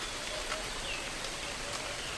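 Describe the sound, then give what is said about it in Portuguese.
Light rain falling on soil beneath a large baobab tree in the savanna: a steady, even, faint hiss of fine drops with no distinct individual impacts, continuous throughout. “A pequena chuva molha o solo e traz um perfume de vida indescritível.”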